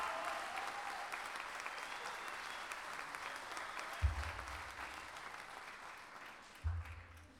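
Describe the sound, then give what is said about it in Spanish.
Audience applause for a poet at an international gala of improvised folk singers, a steady dense clapping that holds loud throughout with two low thumps near the end, no voices over it. “Así que más fuerte el aplauso para este buen poeta.”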